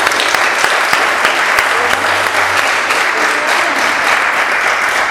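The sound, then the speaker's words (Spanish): Applause from a group at a workshop plenary on setting prices: a dense, steady clatter of many hands clapping throughout. “Muy bien, un aplauso para la verdulería.”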